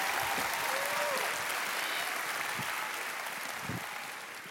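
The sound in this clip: An audience applauds to welcome a speaker to the stage at an evening event for young adults. The clapping is dense and steady and tapers slightly toward the end.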